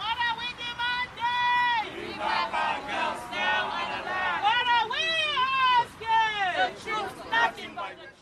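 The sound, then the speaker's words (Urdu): Some 300 protesters chant slogans as they march toward the State House, loud voices rising and falling in repeated, rhythmic phrases over crowd noise. “تقریباً 300 افراد نے state house کی جانب مارچ کیا۔ وہ وہی نعرے لگا رہے تھے جو آج سے 2 سال پہلے اپنی تحریک کے آغاز پر انہوں نے لگائے تھے۔”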